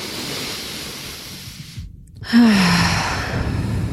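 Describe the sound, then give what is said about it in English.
A deep breath drawn in and let out: a soft airy rush, then a brief quiet gap, then a louder breathy exhale carrying a faint voiced sigh that drops slightly in pitch. “Let's take a breath.”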